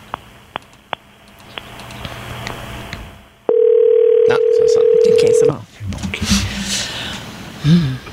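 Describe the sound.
Telephone dialing a long-distance number: a few sharp clicks spaced apart, then a loud steady tone holding for about two seconds, followed by a burst of mixed noise.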